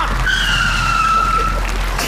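Tires skid under hard braking as a car stops suddenly, giving a sustained, high-pitched squeal that holds for over a second before cutting off, over steady road and engine noise.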